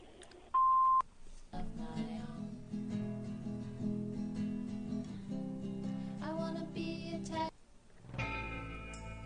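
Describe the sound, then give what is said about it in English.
An answering machine gives a single short, steady mid-pitched beep, and music takes over right after it. “We can't come to the phone right now, so leave a message after the beep.”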